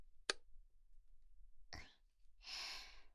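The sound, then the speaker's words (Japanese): A light switch clicked off: a single faint, sharp click, followed by softer rustling and breathy noises. “じゃあ、電気消すよ。”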